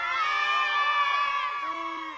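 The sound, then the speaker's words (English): A packed school crowd at St George's in Newtown cheering: sustained, high-pitched shouting voices that hold at an even level, then thin slightly near the end. “It's a capacity crowd here at St George's in Newtown. Everybody, give us a cheer on BBC WM.”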